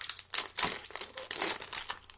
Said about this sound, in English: We're going to open the hockey cards on an audio podcast.